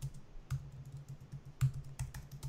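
Typing on a computer keyboard: many light, quick key clicks in an uneven rhythm, quiet and with no talking.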